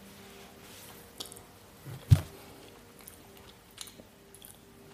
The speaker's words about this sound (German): Moment, ich probiere gerade, dies ist Räucherlachs.